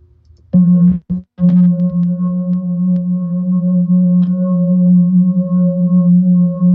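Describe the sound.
Singing bowls ring out with a low, steady hum and bright overtones. After a few strikes and short breaks at the start, a sustained drone holds loud to the end, with no voices.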